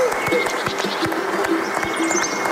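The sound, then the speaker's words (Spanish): An audience applauds at a talk on seed exchange, with dense overlapping claps and voices mixed in. “Yo creo que esto hay que darle un gran aplauso, porque hasta hace poco no podía ser.”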